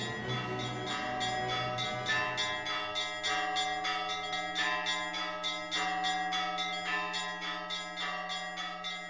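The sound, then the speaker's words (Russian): Merry church bells pealing, many overlapping bright strokes ringing on continuously at an even loudness, with no voices. “по которой я бежал под веселые, переливающиеся звуки колоколов.”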